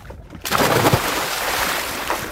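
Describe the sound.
Water splashes as a person plunges into cold water while winter bathing in Kolding: a sudden burst of splashing, then steady churning and washing water noise with no voices.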